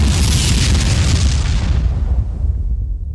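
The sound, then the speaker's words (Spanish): A deep, booming explosion rumble stands in for a star bursting into a supernova as its outer layers collapse onto the core. The roar stays loud and continuous, and its hissing upper edge fades away toward the end. “Las capas externas caen sobre el núcleo compacto a velocidades cercanas a la de la luz y en fracciones de segundo la estrella estalla.”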